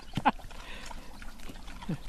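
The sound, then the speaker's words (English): Piglets and mother pigs eating apples: faint snuffling and soft chewing noises broken by a few short grunts. “we have 8 little piglets. Oh, look at the babies. Look at them eating the apples. So sweet. Oh, look at the mothers taking the apples from them.”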